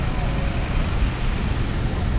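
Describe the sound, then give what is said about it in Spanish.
Traffic rumbles as a fuel-injected motorcycle with dual-channel ABS rides through Mexico City. The roar is dense and continuous, with no distinct events. “Ya casi estamos por llegar de regreso a la agencia. ¿Aguanta un momentito más conmigo? Ahora hay algo de tráfico, pero ya casi llegamos. Un par de semáforos más.”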